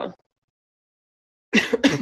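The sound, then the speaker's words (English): Harsh coughing comes from someone who has been sick: a brief burst at the start, then, after a silent pause, two quick rough coughs close together. “excuse me. I did get sick, so I do cough a little.”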